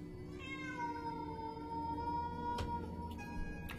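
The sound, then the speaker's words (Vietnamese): A cat meowing at night: one long, drawn-out, wavering cry that sinks in pitch, followed by a shorter second meow, heard alone and fairly faint. “Tiếng mèo kêu trong đêm nghe đến gai cả người.”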